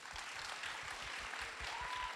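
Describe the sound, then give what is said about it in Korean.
Faint applause from an audience welcoming a contestant group to the stage at a Korean music competition, a soft, steady patter of many hands clapping. “큰 박수로 맞아주시기 바랍니다.”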